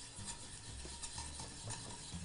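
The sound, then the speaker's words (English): Quiet, repeated scraping strokes of a spoon stirring cream that bubbles as it reduces in a pan, with a faint low sizzle running underneath. “You can see the cream is starting to boil up quite a bit. It's nice, nice reducing. Continuing to stir helps”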